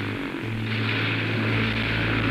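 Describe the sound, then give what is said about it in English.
A small propeller airplane's engine runs rough in flight, giving a loud, steady droning roar with a low humming tone beneath. “Maybe I'd better ease back on the throttle and see if I can get this thing running better. Maybe the gas mixture is too lean.”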